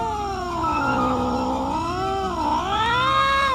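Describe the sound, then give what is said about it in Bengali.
A cat screams horribly in a long, loud, drawn-out yowl, its harmonic wail sliding down in pitch, dipping again briefly, then climbing higher toward the end, with no other sounds. “বিড়ালটা এক বিভৎস চিৎকার করে নিচে চলে গেল।”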